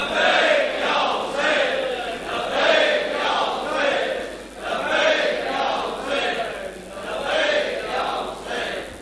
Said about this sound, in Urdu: آپ حضرت سے درخواست ہے کہ لبیک یا حسین کا نعرہ ضرور بلند کریں.